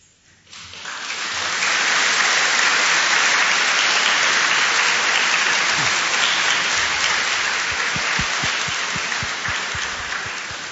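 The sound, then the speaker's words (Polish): Congregation applauding in a small parish church in Zaolzie: clapping swells quickly from near silence into a dense, even roar that holds steady and thins slightly toward the end. “Ja myślę, że w tej chwili klaszcze również cała Polska”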